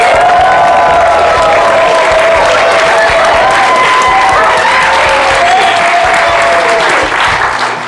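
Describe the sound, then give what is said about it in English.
A live studio audience at the Music Makers Boot Camp breaks into loud, sustained applause mixed with cheering. The clapping is dense and continuous throughout, without a break. “we are here on the Full Circle Music Show, live from Music Makers Boot Camp with a live studio audience.”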